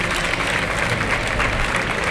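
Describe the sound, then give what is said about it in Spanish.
Crowd applauding in a bullring as the first bull's fight ends, a dense, even wash of clapping that holds steady for about two seconds. “pues aplausos a la voluntad de Morante”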